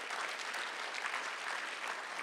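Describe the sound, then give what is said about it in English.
An audience applauding during a church service: dense, continuous clapping, fairly soft and steady from start to end. “would you give the Lord a big round of applause in this place?”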